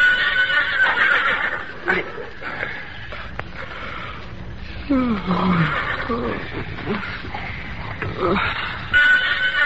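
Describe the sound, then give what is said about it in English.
A pony whinnies in fear, a strained neigh with a clear falling sweep in pitch around the middle, set among other shifting noises with no words spoken. “William Barclay Masterson sensed, rather than heard, his pony's whinny of fear.”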